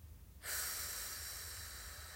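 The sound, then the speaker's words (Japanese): A deep breath taken during a guided relaxation breathing exercise: one long, airy, hissing breath that starts abruptly after a short quiet moment and holds steady to the end. “ではまた吸って吐きます”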